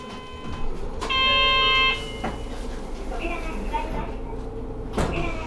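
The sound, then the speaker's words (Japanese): A city bus in Kyoto pulling away from a stop: a steady low engine rumble runs throughout, with a short electronic chime tone near the start and a few faint clunks. “動きます、ご注意ください。 このバスは大丸から竹田駅東口、関心橋、大石橋、京都駅”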